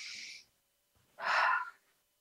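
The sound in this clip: Slow, deep breathing in during a guided relaxation exercise: two soft, airy breath sounds with no talk, the second one longer and fuller.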